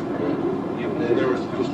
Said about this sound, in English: So we'll see a train going through. We will. There's a train now.